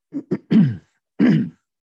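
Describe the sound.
Throat clearing from someone with a tickle in the throat: two short, clipped grunts, then two longer, rougher rasps separated by a brief pause. Fairly loud, with silence after and no talk.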